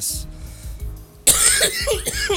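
Harsh, wet coughing from lungs filling with mucus bursts out loudly after a quieter, murmuring stretch, continuing as a rough, congested fit to the end.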